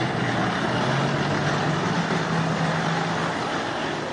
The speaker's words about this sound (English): Rostov-on-Don, which woke up to the sound of armored vehicles rumbling through the streets